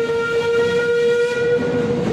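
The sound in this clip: An underground train on the London system departs with a loud, continuous rumble and a steady, high tonal whine running throughout, with no voices.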